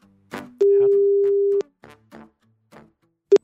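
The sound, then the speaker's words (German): Telephone tones as a call is dialed to bring a guest onto a recording: a steady low tone holds for about a second, then a shorter matching tone sounds near the end, with brief chirpy sounds between them. “bitte drücken Sie auf Anrufen.”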